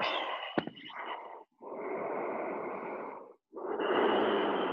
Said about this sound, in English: give that up and put a couple conscious Ujjayi breaths in here.